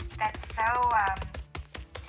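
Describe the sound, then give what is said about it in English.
Meat being pounded in a kitchen by a cook wearing an apron: a quick run of sharp, chopping thuds mixed with talking. “You can hear her now. She's beating that meat silly.”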